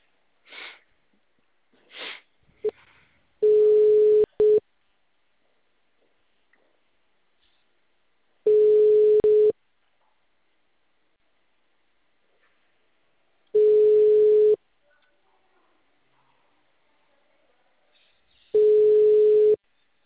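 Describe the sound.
Ringback tone of a telephone call going unanswered: after a few faint short noises, four steady mid-pitched beeps of about a second each sound roughly five seconds apart.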